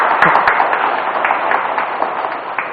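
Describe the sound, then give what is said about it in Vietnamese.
An audience at a Buddhist Dharma talk applauds, a dense, steady wash of many hands clapping that holds at an even level throughout. “Các vị biết sao mà thầy cứ động viên các vị vỗ tay không?”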